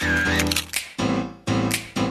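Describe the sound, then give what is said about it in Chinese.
Camera shutter clicks: a few sharp mechanical snaps in quick succession, each with a short resonant tail, following a brief tonal passage at the start. “咔嚓咔嚓，美好的事物就用相机拍下来。”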